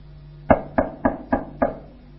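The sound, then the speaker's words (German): Five sharp knocks on a door, evenly spaced in a steady rhythm, each a hollow thud with brief quiet between, and no voices. “Es klopft an der Tür.”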